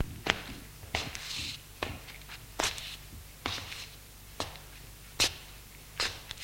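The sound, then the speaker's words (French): Footsteps of a man pacing back and forth in his living room at ten at night: slow, evenly spaced dull steps over a faint low hum. “Pierre est dans son salon. Il est 10h du soir. Il marche de long en large en réfléchissant.”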